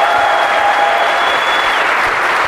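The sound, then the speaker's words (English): Loud, dense audience applause welcoming guests onto a show, a steady wash of clapping that holds evenly for the whole stretch. “So, can we have a huge a round of applause for our amazing guests”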